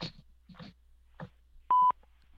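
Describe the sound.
A single telephone keypad tone sounds as a button is pressed at a voicemail prompt: one short, steady, loud beep. Fainter muffled sounds come before it.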